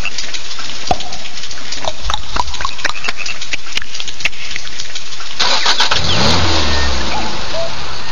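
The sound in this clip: A Škoda Octavia car engine being started: many sharp clicks and rattles come first, then the engine catches with a loud surge and settles into a low, rumbling idle.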